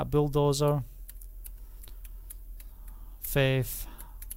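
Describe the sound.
Typing an email address on a computer keyboard: a run of light, irregular key clicks. A voice speaks briefly before the typing and again after it.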